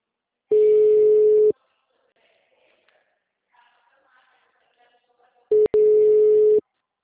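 A telephone busy tone after a dropped call: a steady single-pitch beep lasts about a second, then a long near-silent gap with faint rustling. The tone returns, is briefly interrupted, and sounds again for another second.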